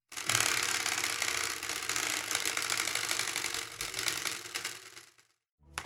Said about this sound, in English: The spinny wheel has landed on Be Curious